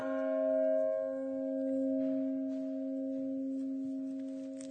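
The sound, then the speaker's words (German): Soft, sustained ringing of a small church bell, the first bell to sound as the peal begins. A steady humming tone with overtones swells and eases gently in loudness. “beim Läuten beginnt in der Regel, auch wenn sie nacheinander eingeschaltet werden, die kleine Glocke, nur ganz zart.”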